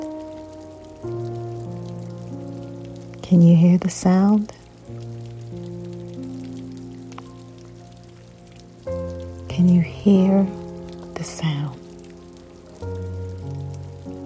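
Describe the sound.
Steady rain patters beneath sustained, harmonic synth-like music, and a voice speaks in two short bursts over the soft hiss.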